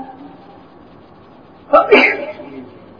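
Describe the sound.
A single sneeze bursts out after a quiet stretch of faint room tone, sharp at onset and then tailing off.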